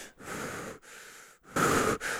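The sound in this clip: Breathing exercise with a full inhale into the belly and then a partial exhale: a few long, airy breaths separated by brief pauses, one noticeably louder and rougher than the rest, with no talking.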